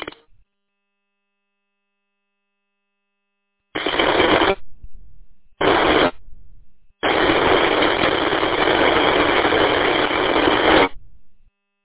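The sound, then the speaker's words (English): Harsh radio static drowns out an unreadable amateur transmission: three loud bursts of hiss, two short and one long and steady, separated by silence. “Yeah, unfortunately, I can't make out your transmission. I'm getting a lot of static interference coming in with your transmission. Definitely not readable.”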